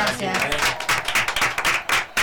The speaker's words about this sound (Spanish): Y nos despedimos con un aplauso, ¿le parece?